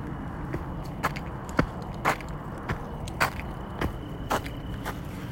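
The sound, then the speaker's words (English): Feet stomp on the ground to scare off coyotes during a walk through a park. Muted, fairly faint thuds fall in an even, repeated rhythm over a low steady hiss. “I'm stomping my feet and stuff to chase away coyotes.”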